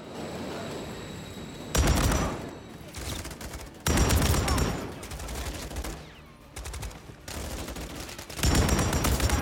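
Heavy automatic gunfire in the video game Call of Duty: Modern Warfare 3, during a firefight near a bomb at a rail crossing. Loud, dense volleys erupt repeatedly, separated by quieter stretches of scattered rattling fire.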